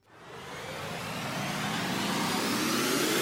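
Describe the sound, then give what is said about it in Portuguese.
A radio show jingle for an insurance segment opens with a rising, engine-like roar that swells quickly and then climbs steadily louder throughout, with no voices. “Roda a vinheta aí!”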